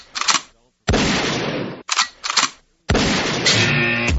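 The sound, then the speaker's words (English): Gunshot sound effects: a few sharp, loud bursts alternating with longer, sustained noisy blasts, heard on their own with no talk over them. “How about a couple of gunshots for you here?”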